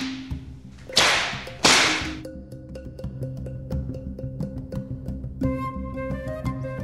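Two sharp whip cracks, punishment lashes given to enslaved people, split the air a fraction of a second apart. Sustained tonal music with low, steady notes follows and continues beneath them.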